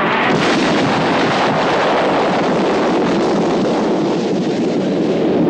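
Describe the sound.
Loud cannon fire and an explosion aimed at a factory, heard as one continuous roaring, rumbling blast that fills several seconds at a steady level without distinct separate shots.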